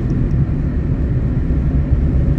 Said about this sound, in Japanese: 私は今運転中でございます